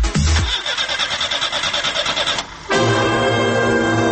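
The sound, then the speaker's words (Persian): A Pride car engine starts: the starter cranks in a rapid, rough churn for about two seconds, pauses briefly, then the engine catches and settles into a loud, steady idle. “اتومبیل پراید. اتومبیل پراید، اتومبیلی که تا آخر خط همراه شماست.”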